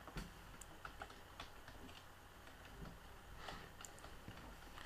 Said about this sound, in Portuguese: Bom, vamos escrever aqui a minha senha.